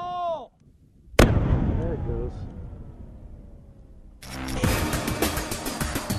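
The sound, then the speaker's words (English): A sharp blast goes off as special operators blow up a drug lab and its processing equipment in Afghanistan. A long, rumbling decay follows, then a second broad burst of noise near the end, with a brief voice at the start. “The special operators set fire to the lab and blow up the drugs and processing equipment.”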